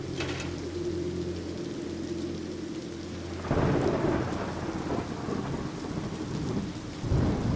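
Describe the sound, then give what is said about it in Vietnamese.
Heavy rain pours steadily during a cold tropical depression with seasonal wind, a dense hiss of falling water over deep, low rumbling. The downpour swells louder about halfway through and again near the end, with no voices. “trời còn mưa nặng hạt, lại cộng thêm cơn gió áp thấp nhiệt đới giao vào mùa, lạnh lạnh”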